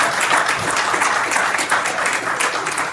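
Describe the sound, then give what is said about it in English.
Church audience applause greeting first-time visitors in the sanctuary: a loud, continuous patter of many hands clapping, steady and unbroken from start to finish. “Put your hands together for us.”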